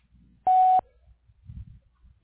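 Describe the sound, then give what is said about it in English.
A voicemail beep sounds before a message is recorded: one steady, mid-pitched electronic tone lasting about a third of a second, followed by quiet low rumbling. “Please leave a message after the tone, and I'll get back to you.”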